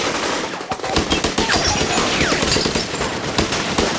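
Gunfire from a show being played: dense, rapid bursts of loud shots run through all four seconds like automatic fire, with no talk over it.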